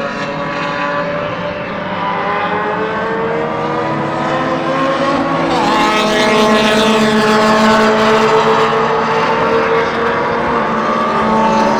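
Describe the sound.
Loud race cars passing on a track, their engines a continuous high-revving roar whose whining pitch shifts and sweeps throughout, with no talk.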